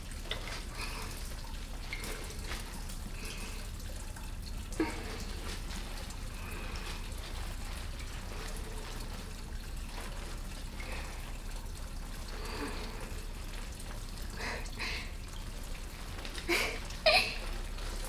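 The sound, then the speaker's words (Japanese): Soap whisked into a thick lather, a soft, continuous wet crackling and squishing that stays quiet and even throughout, broken by a few brief, slightly louder clicks. “たっぷり泡を作っていきます。くるくる、くるくる、”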